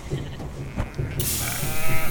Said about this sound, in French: T'es pas la seule, ça a fait aussi peur aux moutons. Ils sont réfugiés dans cette chambre.